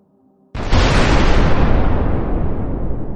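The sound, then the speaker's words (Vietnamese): A dynamite explosion blasts a hole in the back of a Buddha statue: a brief quiet, then one sudden loud blast that rolls into a heavy, sustained rumble lasting to the end. “Ầm một tiếng thật lớn, chờ khói bụi tan đi, 3 người tiến lên xem. Lưng tượng Phật bị thủng một lỗ”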